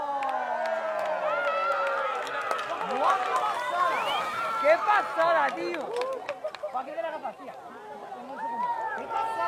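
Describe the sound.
A crowd cheers at the moment of totality during a total solar eclipse in Spain, many voices whooping, shouting and chattering together in a lively, excited swell that keeps going.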